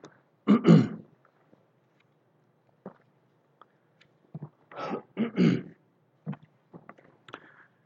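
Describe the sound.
A man repeatedly clears his throat during a Sunday morning church service, producing a few harsh, raspy bursts separated by quiet pauses and faint small clicks.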